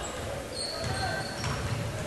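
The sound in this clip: A basketball is dribbled on the court during a women's game, a few dull low bounces under a steady wash of crowd noise in the arena.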